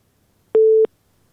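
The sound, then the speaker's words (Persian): A telephone busy signal after a caller's line was cut off: a single short, steady, mid-pitched beep, clear and alone against silence. “شنونده ما از هلمند تماسشان قطع شد.”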